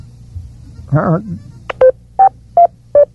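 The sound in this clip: Telephone keypad tones sound as four short, even beeps, each at a slightly different pitch, after a brief vocal warble and a couple of faint clicks over a low background hum.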